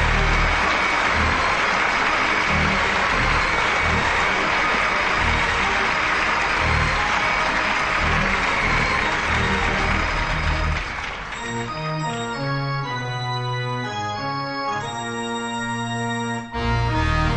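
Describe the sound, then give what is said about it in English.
Audience applause welcoming a guest onto a stage show, loud and sustained for about eleven seconds before sustained tonal organ music takes over. “Please give a warm welcome to Pastor Prime.”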